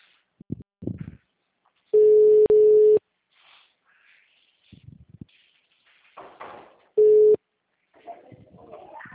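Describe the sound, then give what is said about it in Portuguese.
Telephone line tones after a number is dialed: two long, steady beeps back to back, then faint clicks and rustling, then a third, shorter beep, with soft murmurs between. “Acho que fiz uma ligação, tá? Que eu já disquei.”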